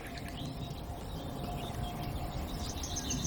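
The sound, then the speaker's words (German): A nightingale sings in the background, faint, high chirps and trills that come and go over a low, steady hum. “Und immer wieder so plätschernder Gesang im Hintergrund. Einmal ist die Nachtigall,”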